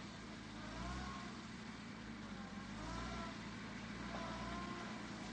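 A covered truck drives slowly out of a courtyard through its gates on a foggy night, its engine a faint, steady low rumble that swells slightly now and then.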